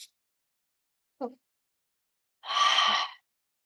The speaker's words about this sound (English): So the physiological sigh, it sounds like this.